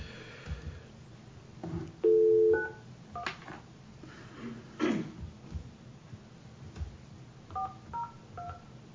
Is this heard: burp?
no